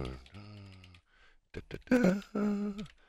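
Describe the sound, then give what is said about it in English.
Typing on a computer keyboard, a password being entered, heard as a quick cluster of light clicks between stretches of a person's voice. “I got to do something. I got to type.”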